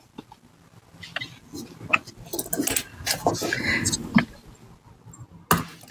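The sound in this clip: A tarot card deck is cut by hand, giving soft papery slaps, riffles and taps that come in uneven bursts, a couple of them sharper and louder than the rest.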